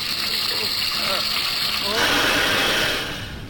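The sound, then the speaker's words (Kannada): Water boiling in a pot for cooking gives a steady rushing, bubbling noise that swells louder partway through and eases off at the end, with a voice faintly beneath it. “ಸರಿ, ನೀರ್ ಕುದಿತಾ ಇದೆ, ಬೇಗ ಹಾಕ್ರಿ.”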